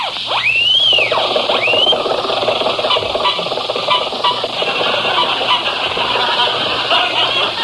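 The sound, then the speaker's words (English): An old Maxwell car engine runs on the highway. It opens with squealing, rising and falling whistle-like sweeps, then settles into a steady, noisy, rattling drone. “Jack and Mary are driving back from San Francisco, where we did our last broadcast, so we'll pick them up in the Maxwell en route to Hollywood.”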